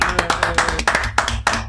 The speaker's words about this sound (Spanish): Ángela Lansbury, este aplauso va para ti